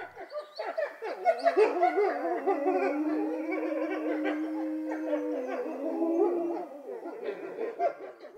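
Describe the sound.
Wolf howling: a sustained, wavering tonal howl that continues for about eight seconds, holding a steady pitch with slight bends and no pauses.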